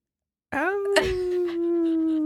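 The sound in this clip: A child's voice imitates a dog with one drawn-out howling wail. It starts abruptly after a moment of silence, bends upward briefly, then holds a steady, fairly high moaning tone to the end.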